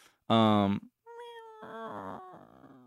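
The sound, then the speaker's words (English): A person mimics a faint cat meow: one short, strong meow-like cry, then after a pause a longer, thinner wavering call. “it was a faint meow, but a meow nonetheless.”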